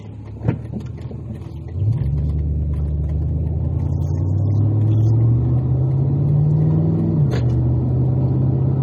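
A car driving, recorded from inside on a slightly shaky handheld recorder: a steady low rumble as the engine note climbs gradually for several seconds, then drops abruptly, with a faint click near the start.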